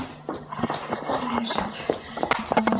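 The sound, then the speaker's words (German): A mother's footsteps approach as quick, light taps in an uneven run of steps, with a voice speaking over them. “Da kommt die Mama.”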